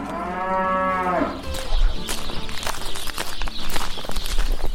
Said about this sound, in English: These are our little babies. These are all less than 4 or 5 months old. They're all heifers, so they're all female.